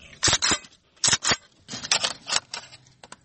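Sharp metallic clicks and clacks come from a Kalashnikov rifle being cleaned at home. Several short, irregular snaps and rattles are heard, fairly quiet, with brief pauses between them.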